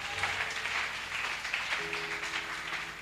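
A church audience applauds with steady, even clapping that stays soft and continuous throughout.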